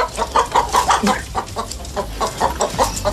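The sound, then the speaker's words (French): Turkey gobbling: a rapid, loud run of many warbling, throaty calls in an uneven rhythm that carries on throughout, with no talk. “Le dindon ou la dinde glougloute, c'est clair.”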